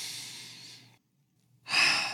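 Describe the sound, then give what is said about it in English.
A deep breath, heard as a soft, airy, breathy sound that fades out. After a short silence, a louder rush of breath begins. “let's just like kind of breathe deeply”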